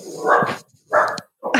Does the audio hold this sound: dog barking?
yes